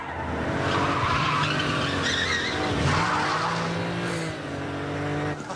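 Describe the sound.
Car tyres screech and skid as the car reverses into traffic and spins through a 180-degree turn in a tunnel. The squeal is loud and sustained for about five seconds, with engine roar underneath throughout.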